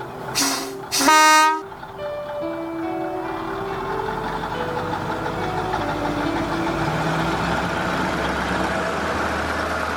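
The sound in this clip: A departing train gives two short, loud whistle toots, then a steady, moderately loud engine rumble with droning tones that shift in pitch continues as it pulls away.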